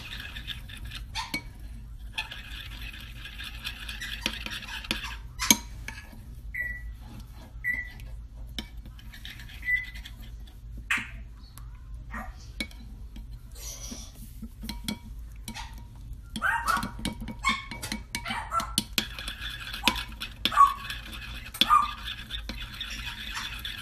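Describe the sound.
Ganache being mixed in a bowl: faint, irregular scrapes, taps and light clinks of a utensil against the bowl, scattered throughout over a quiet low hum.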